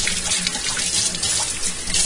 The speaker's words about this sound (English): Alright, washing my celery.